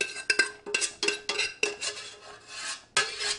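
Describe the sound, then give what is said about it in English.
Utensil scraping cooked lentils out of a pot, to be layered with baked butternut squash: many short, gritty metallic scrapes and clinks in an uneven rhythm, fairly faint, with no talk. “I'm gonna go ahead and just scoop the rest of these lentils out.”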